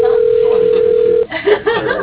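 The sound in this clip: A ringback tone on a dialed telephone call: one steady, loud, pitched tone lasting just over a second, cut off abruptly as a recorded voice begins.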